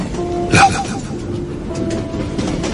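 A train carriage rolls along the rails, giving a steady low rumble with a faint sustained hum and a brief clatter near the start.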